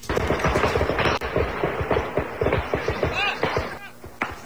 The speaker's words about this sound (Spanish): mientras se escuchan las ráfagas de armas largas en las huertas.